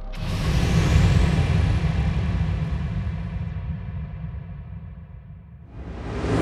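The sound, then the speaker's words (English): Car driven through downtown streets: a low engine and road rumble that swells early, slowly eases off, then rises again in a rush at the end. “Sorry, I'm driving and monitoring the computer at the same time.”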